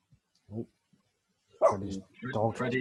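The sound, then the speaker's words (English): A dog barks angrily. One short, soft bark comes first, then a few longer, louder barks with a rough, harmonic tone. “My dog is very angry about Saudi Arabia.”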